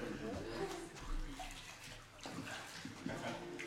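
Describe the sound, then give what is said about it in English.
Water sloshing and splashing as a man is lowered into and raised from a baptismal pool by full immersion, a continuous churning wash with surges, and voices faintly present beneath it. “I baptize you, my brother, in the name of the Father, and the Son, and the Holy Spirit. You're buried in the likeness of his death.”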